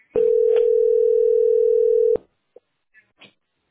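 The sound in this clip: A steady telephone line tone hums for about two seconds while calling an operator, then cuts off abruptly, followed by a few faint clicks.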